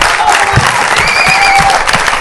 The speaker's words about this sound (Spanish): Le vamos a dar un aplauso para que baje hasta aquí.